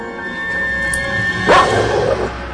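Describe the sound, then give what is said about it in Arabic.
A chained guard dog at a villa lets out a single sharp bark that trails off into a short whine, over a steady low hum. “هي دي الفيلا؟ وايه لازمة الكلاب المرعبة دي؟ على الاقل مربوطة بسلاسل.”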